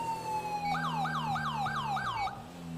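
A police car siren from the video game GTA 5 holds a steady tone, then switches to a fast, repeating rise-and-fall yelp over a low engine hum before cutting off abruptly.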